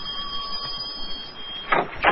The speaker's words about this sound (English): feeling put out and hungry, he rang the bell.